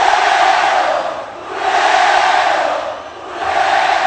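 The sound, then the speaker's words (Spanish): Audience chanting European-style chants, a loud mass of many voices rising and falling in broad waves, with two clear dips between sustained swells. “Cuando el público empieza a entonar cánticos europeos, que se oiga con huevo, con huevo.”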